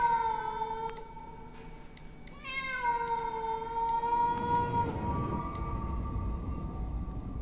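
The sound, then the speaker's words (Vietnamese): A cat yowls in one long, drawn-out wavering cry whose pitch dips partway through, loud and tonal, while a broader rushing noise rises underneath toward the end. “con mèo chết tiệt này, bố hết cả hồn”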